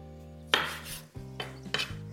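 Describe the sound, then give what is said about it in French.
A knife cuts orange quarters cleanly on a board, trimming away the tough white core. About three quiet, crisp cutting strokes land at an even pace. “je viens tout simplement retirer cette partie un peu blanche, un peu dure, qui est euh, au cœur de l'orange. Donc là, je coupe bien net tous mes quartiers.”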